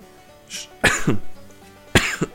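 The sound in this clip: Two sharp, loud human coughs about a second apart, each a sudden burst with a short raspy tail, with a faint breathy sound just before the first.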